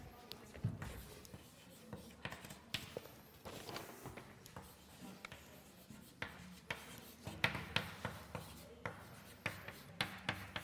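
Writing on a board during a maths lecture: many short, scratchy strokes tap and scrape in an uneven rhythm, with brief pauses between bursts, moderately loud over a faint background.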